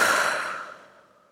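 A deep exhale through an open mouth during a breathing exercise: one long, breathy rush of air that starts fairly strong and steadily fades away.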